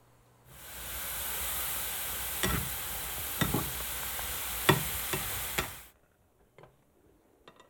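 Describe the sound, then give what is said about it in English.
Squirrel meat simmers in a pot with a steady, hissing bubble for about five seconds, broken by a few sharp clinks of stirring, then cuts to near silence with faint scattered taps. “and then we'll stir it occasionally, and then when we can tell it gets tender, then we'll know it's done”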